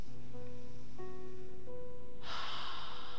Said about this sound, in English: Another time, a deep breath in